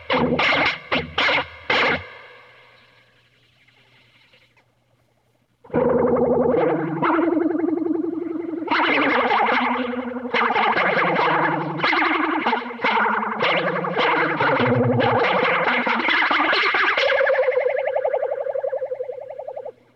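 Electric guitar played through a flanger pedal with vibrato added: a few quick plucked notes, a short gap, then sustained chords and notes with a swirling, shimmering sweep and a gentle wavering pitch.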